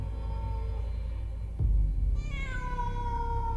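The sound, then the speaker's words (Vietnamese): A cat meows and screeches at night in a graveyard. A harmonic cry is heard over a steady low hum, then a dull thump midway, followed by a drawn-out, wavering meow. “Trong đêm cả khu đình mả đang tịch mịch vang lên tiếng mèo kêu. Con mèo rít lên”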